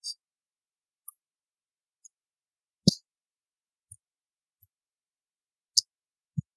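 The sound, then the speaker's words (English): A folding knife blade walks open and shut close to the mic, giving several sharp, isolated clicks and snaps at irregular spacing with silence between them. “Awesome knife. I'm going to put it up to the mic for a sec so you can hear. You can hear that walk.”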